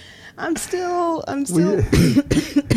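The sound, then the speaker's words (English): A person with bronchitis coughs and clears their throat, giving a few harsh, rough bursts that are mixed with voiced sounds. “I'm still coughing away and such.”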